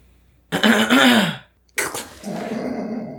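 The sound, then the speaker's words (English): A man clears his throat in character during a tabletop role-playing game: two gruff, rasping bursts separated by a short pause, the second trailing off into a lower, steadier rumble. “he cleared his throat”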